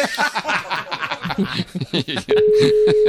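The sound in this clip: A steady telephone dial tone cuts in partway through as a call is placed. It follows a stretch of people talking and chuckling, then holds at one unchanging pitch to the end.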